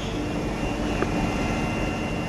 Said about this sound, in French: est-ce qu'on peut euh, démarrer la machine Oui, il suffit de demander. On appuie sur le gros bouton rouge et c'est parti.